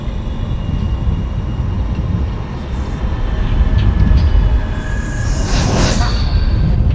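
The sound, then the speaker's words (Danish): A speeding train rushes straight past a station without stopping. Its loud, steady roar and rattle swell slightly, and a hissing, high squeal rises briefly near the end. “We didn't stop. We just blew straight past the train station. We're going too fast.”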